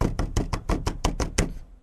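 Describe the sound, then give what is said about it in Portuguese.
Knuckles knock on wood in a quick, evenly spaced run of many solid raps, each short and hollow, ending with a fading final knock. “batendo na madeira”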